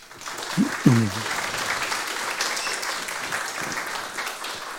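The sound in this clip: An audience at a talk applauds to welcome the speaker, with dense, steady clapping throughout and a brief voice near the start.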